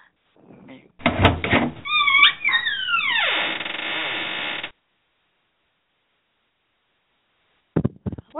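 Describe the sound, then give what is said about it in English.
A sound effect of a boat opening: a loud creaking burst with gliding, falling squeals that lasts a few seconds and then cuts to silence. A few brief sharp bursts follow near the end. “What was that? That's the sound of the boat opening.”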